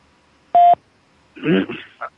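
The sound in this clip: One short, steady beep of a telephone keypad tone sounds while a phone number is dialed, then a brief burst of a voice follows.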